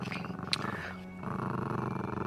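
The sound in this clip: A dog gives a low, continuous growl, a steady rumbling that holds for the whole stretch at a moderate level, with no clear words.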